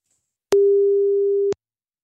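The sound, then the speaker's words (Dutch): Telephone ringback tone heard while calling someone: a single steady, mid-pitched beep lasting about one second, alone in silence. “Dus we gaan even mijn moeder proberen te bellen.”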